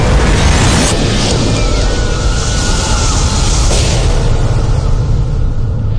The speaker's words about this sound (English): All of this ended in a flash of nuclear fire.